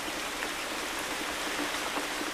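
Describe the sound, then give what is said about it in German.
Water pours steadily from a watering can into balcony flower pots, making a soft, continuous splashing hiss without breaks that stays fairly faint throughout. “Er nimmt eine Gießkanne und schüttet Wasser in die Blumentöpfe.”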